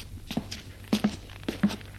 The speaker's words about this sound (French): Le père s'arrête de marcher.